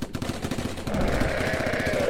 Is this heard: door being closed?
no